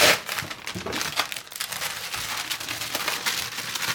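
Paper crinkles and rustles as it is folded around fish to seal it for cooking en papillote. The crackling is soft and continuous, with a few sharper crinkles near the start.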